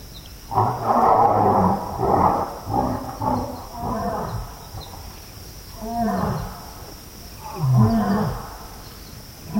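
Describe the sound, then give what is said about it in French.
Two lions roar back and forth at night by a waterhole, heard far off: a few deep, rough, throaty bursts rise and fade in a loose exchange, with a faint steady insect hum running underneath. “On entend déjà un petit peu les lions au loin. Voilà, donc là, il y a deux lions qui se répondent.”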